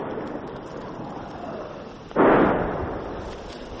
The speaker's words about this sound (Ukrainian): Постійно чути, як працює артилерія.